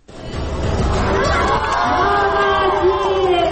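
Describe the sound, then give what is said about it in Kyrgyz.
Spectators cheering at a girls' football event where blindfolded young girls kick a ball into a small goal; a loud, sustained crowd roar swells in quickly, with high shouting voices rising above it. “Алардын мындай чеберчилигин көрүүчүлөр дуулда да колдоп турушту.”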